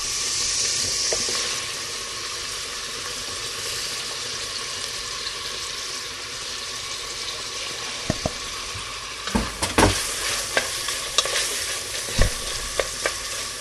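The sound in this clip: Onions sizzle steadily as they fry in a pan for a vegetable dish, with a dense hiss throughout. In the second half, sharp clicks and scrapes from stirring break in irregularly.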